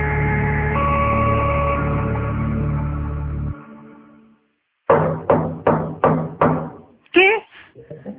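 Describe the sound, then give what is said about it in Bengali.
Slow, tired knocking on a door in a quiet hostel room at midday: six steady raps follow a sustained droning tone that fades away. A brief wavering pitched sound and a few softer taps come after the raps. “দরজায় অদ্ভুত ভাবে কে যেন টোকা দিচ্ছে, থেমে থেমে ক্লান্ত হাতে।”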